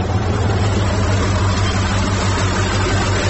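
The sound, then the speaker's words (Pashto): A low, dense engine rumble from a truck on a cold desert road, a steady droning throb with a broad roar layered over it, holding constant in loudness throughout with no voices. “تا ته ودرېږه، یوه لارۍ خو راغله، همدا لارۍ ته به لاس ورکړم.”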